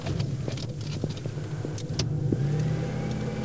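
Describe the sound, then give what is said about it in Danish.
Steady engine hum and road noise come from a car driving uphill toward the hospital in a small Danish town. Low rumble with faint scattered ticks and knocks continues evenly throughout, without talk. “Vi kører videre op ad mod sygehuset.”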